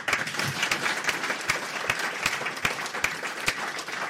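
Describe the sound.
Audience applause welcoming guests at an evening panel: dense, steady clapping from a crowd that holds at an even loudness for about four seconds, with sharp individual claps popping out and no voices over it.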